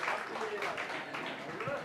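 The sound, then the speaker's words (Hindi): Applause from a quiz show audience: dense, even clapping that fills the short stretch, with some voices mixed in. “जोरदार तालियां।”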